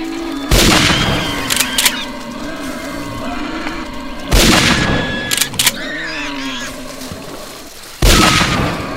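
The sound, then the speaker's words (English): Three loud gunshots are fired from up in a tree in a hunting video game. They come about four seconds apart, each a sharp blast with a decaying tail over continuous ambient game sound. “I've just pressed page down to shoot from up in the tree”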